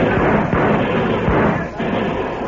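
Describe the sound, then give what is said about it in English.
Gunfire from a Western gun battle, with homesteaders and cattlemen firing on gunmen from Texas in Johnson County: a dense, loud, continuous roar of shots with scattered sharper reports throughout. “Tell the homesteaders and cattlemen to open fire. Right now. Now, boys! Open fire on those Texas killers!”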